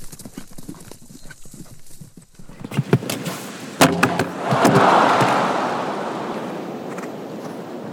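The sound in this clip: Horse hooves clip-clop during a show jumping round, a steady run of hoofbeats broken by a sharp knock, after which broad crowd noise swells and slowly fades.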